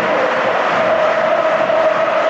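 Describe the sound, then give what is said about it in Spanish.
Football crowd cheering at Mestalla stadium in Valencia during a match, as the home supporters liven up again. A dense, loud, unbroken roar carries a sustained chant-like tone throughout. “Ahora vuelve a animarse el público en Mestalla, tal y como va el partido cuando juega Gerard.”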